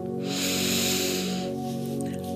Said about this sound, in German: Atme tief ein